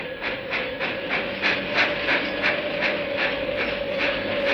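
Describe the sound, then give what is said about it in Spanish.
A train arriving at a railway station on a snowy February day gives a steady, rhythmic run of chuffing, clattering beats over a sustained tone and a low rumble, with no voices. “Un único pasajero se apeó del tren en la estación de ferrocarril de Bramblehead.”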